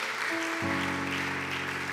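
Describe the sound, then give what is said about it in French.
Church audience applauding the Lord, a dense wash of clapping held steady for the whole moment, with sustained tones ringing underneath. “Est-ce que quelqu'un peut m'aider à acclamer le Seigneur?”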